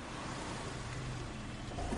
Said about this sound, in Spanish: En un garaje superior, un coche sube una planta. Aparca junto a una de las barandillas exteriores.